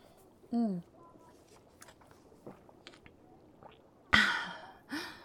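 A potion downed in one gulp: a short voiced sound and soft wet mouth clicks, then a sharp, breathy gasp, with a quieter breath at the end.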